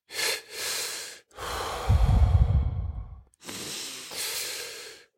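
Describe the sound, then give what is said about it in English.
A breathing exercise: a double inhale, two short pulls of air, followed by a long, forceful exhale with a breathy rush, then another drawn-in breath. No voices. “So, two inhales and a long exhale.”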